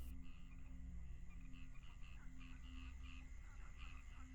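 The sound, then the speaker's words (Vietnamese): Frogs croak in rice fields at night, a faint, dense chorus of rasping calls that carries on steadily throughout with no pauses. “Tiếng ếch kêu râm ran trên những thửa ruộng.”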